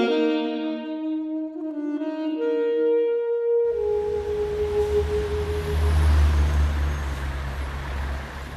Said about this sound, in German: Der Verkehr an einer lauten Straße.